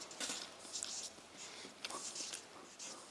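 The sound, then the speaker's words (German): Handwriting comes through as faint, scratchy strokes in short, irregular bursts, one after another with brief pauses. “Ich habe früher mal schöner geschrieben, aber ihr könnt es glaube ich lesen.”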